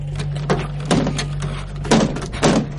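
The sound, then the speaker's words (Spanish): Crowbar prying and forcing open a trailer door in its frame: a few creaking, grinding bursts with knocks, rising above a steady low hum. “Coge una palanca y se acerca a la puerta de la caravana. Introduce la palanca en el marco de la puerta y la fuerza.”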